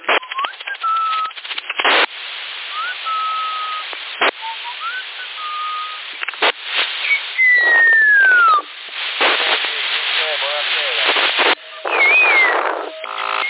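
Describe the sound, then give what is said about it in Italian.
Whistling comes over a CB radio channel near Sassari, thin and band-limited, with short whistled tones and one longer falling whistle, broken up by radio clicks, hiss and static bursts. “Non sai fischiare no! Sei negato per il fischio. E io? E chi sta fischiando?”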